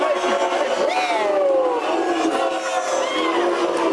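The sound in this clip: A crowd of Dallas Cowboys fans cheers in a continuous, loud roar mixed with shouts and whistle-like calls, lasting the whole clip without a break.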